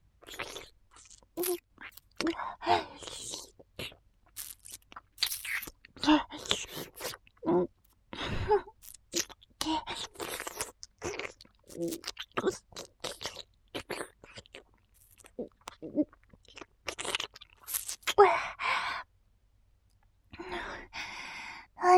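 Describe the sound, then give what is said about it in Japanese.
A matsutake mushroom is chewed and crunched in many irregular, close bites and crunches separated by short gaps, with a longer pause near the end. “松茸、すっごくおいしいよ。世界に一本しかない超高級品だもんね。”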